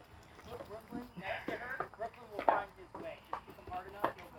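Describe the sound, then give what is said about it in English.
Horses' hooves clop on training stairs and a ramp, making irregular, fairly faint knocks of uneven loudness and spacing. “There you go, kick him right on up. Down the ramp or the stairs, either one. One of the horses does not seem too keen on the on the stairs.”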